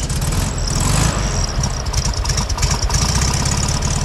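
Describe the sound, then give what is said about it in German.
Engine of a classic Volkswagen Beetle runs with a loud, steady, rough mechanical putter that stays continuous for about four seconds, with no voices. “dorthin ist sie natürlich standesgemäß mit ihrem Käfer gefahren.”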